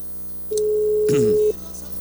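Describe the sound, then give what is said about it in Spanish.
A phone line gives a telephone ringing tone while the caller waits for an answer: one steady, low beep about a second long over a constant background hum. A voice briefly talks over the middle of the tone. “ojalá que conteste. Ya está dando tono, por lo pronto ya está dando tono.”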